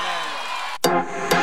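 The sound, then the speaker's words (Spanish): Audience applause and crowd noise burst out suddenly after a short voice and a brief silence, staying dense and loud to the end of the short stretch. “Y un aplauso enorme para Abel Pinto Vieja.”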